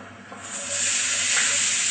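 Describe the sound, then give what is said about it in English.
Onions frying in oil in an electric frying pan give a steady, bright sizzling hiss that swells slightly louder and holds evenly, with no talking. “Fry the onions a little until they're golden brown.”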